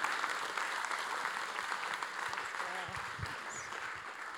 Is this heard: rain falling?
no